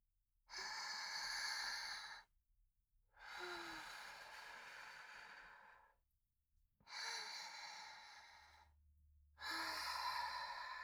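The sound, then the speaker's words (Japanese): Slow, deep breathing during a guided relaxation exercise: four long, airy breaths of about two seconds each, separated by short pauses, soft and quiet with no talk. “また深呼吸してみよっか。”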